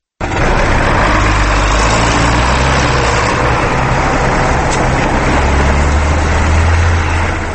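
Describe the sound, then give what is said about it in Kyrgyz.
A wheeled American John Deere tractor ploughs a field at the edge of a village, its engine giving a steady, loud, unbroken drone with a deep low rumble throughout and no voices. “Дөңгөлөктүү Джон Дир тракторунун боорусуну Кундрайтит айылынын четиндеги сүдүгөрдү тилип оодарып жатты.”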